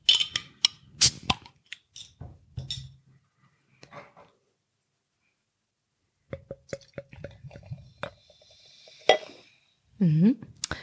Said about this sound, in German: Machen wir die Flasche doch mal auf.